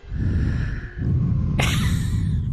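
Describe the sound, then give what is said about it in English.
Breath blown directly into a microphone makes loud, buffeting wind rumble. There are two long blows with a short dip between them, and a sudden hissy burst partway through the second. “Breathe out directly into the microphone. Make it sound really terrible.”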